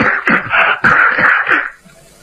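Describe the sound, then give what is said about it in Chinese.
A storyteller's voice imitates a person's repeated coughing: a rapid run of harsh, raspy voiced bursts in close succession, loud, then breaking off abruptly into quiet. “这么老半天还咳嗽呢，咔咔咔咔咔”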